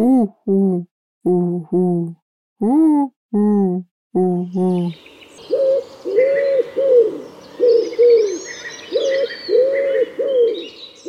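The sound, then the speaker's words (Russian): A human voice imitates a common wood pigeon with eight short, hollow hooting coos. A real pigeon's rhythmic cooing phrase follows, with other birds chirping in the background. “Я сегодня услышал вяхеря. Это такой крупный лесной голубь, и многие, когда его слышат впервые, путают его с совой. Он так делает...”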